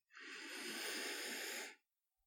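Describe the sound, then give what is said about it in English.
A slow, deep breath drawn in an intimate, calming moment: one long, steady breathy hiss lasting over a second and a half, rising quickly, holding even, then stopping, with no talk over it. “Just try to breathe in with me.”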